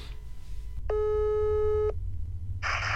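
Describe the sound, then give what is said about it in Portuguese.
A telephone tone sounds while a guest is being called for an on-air interview. It is a single steady, buzzy tone lasting about a second, followed by a brief burst of noise. “Agora a gente vai ligar para Rafinha Bastos, o humorista. Vamos lá.”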